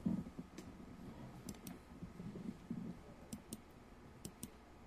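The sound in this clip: Quiet computer mouse clicks, a few light, sharp ticks spread across a faint background hum, some falling in quick pairs.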